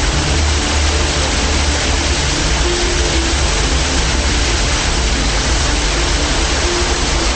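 Water pouring through a breach at the top of a tunnel structure, heard as a loud, steady roar of rushing water that never pauses, with no voices.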